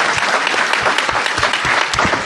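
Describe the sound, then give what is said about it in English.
An audience at a tech presentation applauds a participant with steady, dense clapping that holds at an even level from start to finish, with no voices over it. “But a big hand for Aaron, who tried to participate.”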